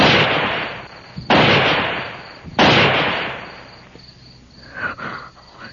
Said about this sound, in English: fire 3 shots in the air, one after the other.